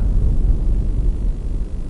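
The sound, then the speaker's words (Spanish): Deep, continuous rumble of an atomic explosion shown on a monitor, a steady low roar without distinct separate blasts, sustained for the whole stretch with no talk. “En el monitor, una explosión atómica arrasa todo a su paso.”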